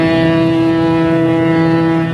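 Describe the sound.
Ship sirens of the former liner France on its return to the port of Le Havre: one deep, loud, steady horn blast held without a break for the whole clip, with no voices.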